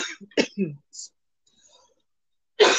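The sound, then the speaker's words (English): A person coughs and clears their throat in a few short, rough bursts, falls nearly silent, then hacks once more, louder. “People are going to have to listen to me hack for a minute.”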